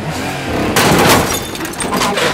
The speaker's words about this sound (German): Habe ich rückwärts gesagt oder nicht? Jetzt hast du ihn wieder gerammt. Ich habe ihn höchstens leicht touchiert.